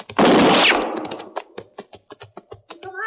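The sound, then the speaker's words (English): A woman fires a rifle repeatedly at a shack about 100 yards away: one loud, broad blast followed by a rapid run of sharp, clipped cracks that gradually thin out. “I found a woman who appeared to be in her middle 30s busily firing a rifle at a shack that stood some 100 yards beyond me.”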